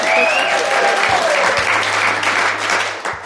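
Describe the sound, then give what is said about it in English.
A live audience applauds in Phoenix: a loud, steady wash of clapping from many hands that lasts the whole clip, with no one speaking over it. “As you can hear, we are recording in front of a live audience.”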